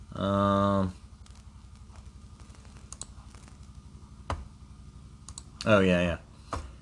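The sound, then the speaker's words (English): A computer mouse clicks while someone browses through old late-90s web pages. A few sharp, sparse clicks stand out from a quiet background. “I'm trying to remember where it is as I click through it.”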